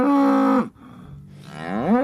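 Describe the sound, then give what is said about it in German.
A farm cow gives one long moo that starts as a steady low tone, drops into a rough breathy middle, then swells and rises again at the end, heard alone. “Ja, diese Kühe, die haben dann so Namen wie Pixel oder Cooper oder Rosinchen oder auch Alf.”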